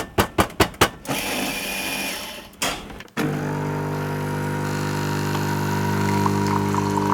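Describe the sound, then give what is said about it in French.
Coffee machine making coffee: a quick series of sharp clicks and a whirring mechanical grind, a brief break, then a loud, steady pump hum with a droning tone that runs to the end. “Le café ici à la machine, vous l'aimez comment ? Serré, allongé, avec un nuage de crème ?”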